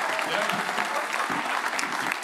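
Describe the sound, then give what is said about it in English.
A church audience gives a round of applause, many hands clapping in a thick, continuous rattle that holds a steady loud level throughout, with a few voices mixed into the crowd. “Let's just give Al another round of applause.”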